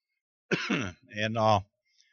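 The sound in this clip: A preacher coughs and clears their throat mid-sermon, two harsh, rasping bursts in quick succession, then silence.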